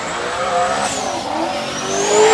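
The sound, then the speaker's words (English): Engine roar from a turbocharged 1969 Camaro at a drag racing event: a loud, steady, rough rumble with a high whine sweeping across it. The roar swells toward the end. “That's a little different sound. Wow. That's a it's scoot 69, I think a 69 Camaro running a turbo.”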